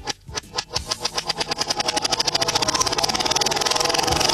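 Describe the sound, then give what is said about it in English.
A prize wheel spun backwards gives off a rattling run of clicks. The ticks start spaced apart, then speed up into a loud, fast, even clatter. “I'm spinning it backwards, okay? I'm going to spin the wheel backwards.”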